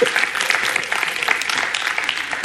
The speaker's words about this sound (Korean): 박수 한번 치시죠.